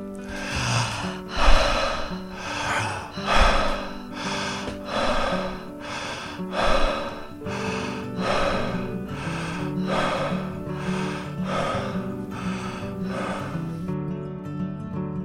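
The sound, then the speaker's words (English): Connected breathing during a breathwork exercise, with inhales and exhales flowing into each other without pause. The loud, steady rhythm runs at about one breath per second over soft sustained music. “And now let's ramp up the energy a little bit by connecting the breath so there's no pause between the inhale and exhale.”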